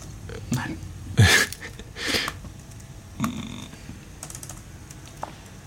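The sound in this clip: Typing on a computer keyboard: irregular clacking keystrokes with a few louder bursts of rapid key presses over a low background.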